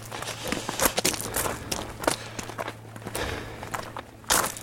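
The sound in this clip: Footsteps of a walker carrying a heavy backpack along a developed hiking trail, a steady rhythm of many steps with no voices.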